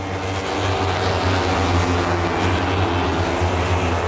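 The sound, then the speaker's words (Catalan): Ducati MotoGP racing motorcycle engine during a race at the Sachsenring, a loud, steady, high-revving roar that holds without a break for the whole clip. “Marc, sentiu-lo, la Ducati.”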